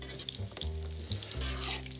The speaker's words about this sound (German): Ich gebe dir mal einen Stampfer. Ja. Also ich will jetzt kein Püree, so ein bisschen Struktur soll noch drin sein. Gerne. Aber ich das mal so grob durchstampfe.